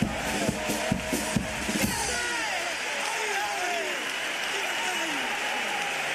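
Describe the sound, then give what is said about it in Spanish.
An audience on its feet after a pasodoble lyric: a burst of loud clapping that gives way to a dense wash of cheering and shouting voices, sustained and strong. “El público en pie como reacción a esta letra de Paso Doble. ¡Qué barbaridad! ¡Qué grande!”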